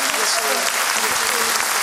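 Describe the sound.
Applause at an award presentation ceremony, a loud, dense, steady wash of clapping with a voice talking over it.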